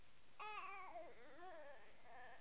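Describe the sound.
A baby boy fusses with a few soft, whiny cries whose pitch wavers and bends up and down, followed by a quieter whimper.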